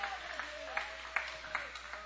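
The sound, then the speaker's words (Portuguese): Quiet audienceal clapping for Jesus in a church service, a soft continuous patter with louder accents recurring at a regular beat over a faint sustained tone. “Bate as palmas para Jesus.”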